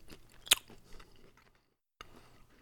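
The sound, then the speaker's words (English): Biting into a flaky, lardy pastry crust with an egg wash, slightly overcooked and dried out: one sharp loud crunch, then quieter crackling chews, a brief pause, and chewing resumes. “Actually, I'm gonna just bite it. I can't cut it.”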